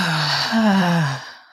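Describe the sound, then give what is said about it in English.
A deep breath is let out audibly through the mouth as a long, breathy, sigh-like exhale with a slight voiced tone, loud and alone, trailing off at the end. “Let's take a deep cleansing breath. Take a big inhale in and hold it, and exhale audibly out of your mouth.”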